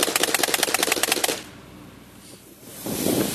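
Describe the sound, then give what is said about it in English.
Rapid automatic fire from an AA-12 shotgun aimed at a backyard swing set: many fast, evenly spaced loud shots in a steady burst, followed by a quieter low rumble as the firing stops. “Good, and he's shooting the swing set.”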